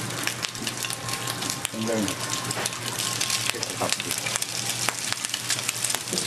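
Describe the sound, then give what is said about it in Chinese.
Squid strips sizzle as they are stir-fried with sea urchin, egg, cheese and spices, a steady crackling hiss broken by scattered sharp pops. “将鱿鱼切成条状，取代意大利面。翻炒过程中加入肥美的海胆，还有鸡蛋、奶酪以及各种香料，一道海鲜版的意式料理就能上桌。”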